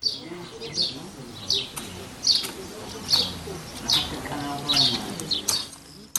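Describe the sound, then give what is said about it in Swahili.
Birds call in rural countryside in central Portugal. Short, high chirps repeat at a fairly even pace, with soft cooing and a quieter background chorus underneath. “Sauti za ndege zikiashiria eneo hili la mashambani”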